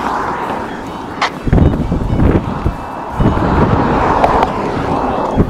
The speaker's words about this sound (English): I apologize for the traffic noises